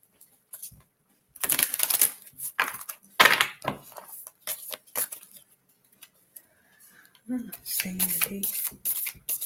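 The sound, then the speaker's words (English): Cards are handled and shuffled from a deck, some sticking together as one is pulled from the top, giving bursts of crisp papery clicks and flutters separated by short pauses. “And then I have this other deck of cards.”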